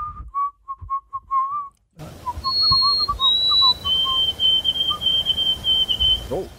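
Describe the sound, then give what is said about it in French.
A person whistles alone, mimicking a bothersome noise: a run of short, mid-pitched notes, then long, high, steady tones that drift slightly lower, over a hissing background. “maître siffleur, est-ce que tu peux me faire le sifflement du bruit?”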